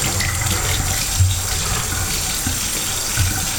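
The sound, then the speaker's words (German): Running tap water pours steadily while hands are washed under it, making a continuous, even splashing hiss with slight swells. No talk is heard. “Dann nochmal Hände waschen”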